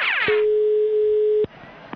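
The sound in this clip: A single steady ringback tone sounds on an outgoing telephone call to a supermarket in Lecumberri, Navarra. One clear, even beep lasts just over a second and cuts off abruptly, with a brief voice fragment at the start.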